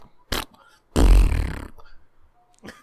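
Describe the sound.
A voice mimics a fart. A brief puff comes first, then after a pause a loud, low, rough blast that trails off, with a faint short sound at the end.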